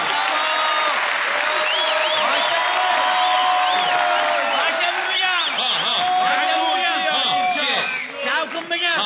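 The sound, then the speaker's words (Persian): An audience on a Persian-language entertainment show applauds a contestant. Dense, steady clapping with cheering, whoops and crowd voices mixed in runs throughout and thins slightly near the end. “معرفی می کنم شرکت کننده دستمال به دست برنامه شنگول خواست لطفاً تشویقش کنید”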